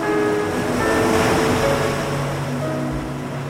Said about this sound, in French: Un simple son de vague enregistré sur la côte atlantique.